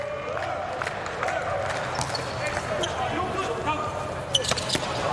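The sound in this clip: In a women's volleyball match involving Turkey, a serve and the following hits land as sharp ball thuds over a steady murmur of crowd noise while commentators talk.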